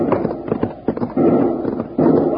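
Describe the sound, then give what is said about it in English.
Gunshots ring out in a radio drama battle: a few sharp bangs cut through steady, muffled background noise. “Somebody shooting.”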